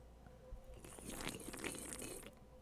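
Beer being opened and sipped: a soft crackling, fizzy hiss builds and runs for about a second and a half, faint and alone, with no talking.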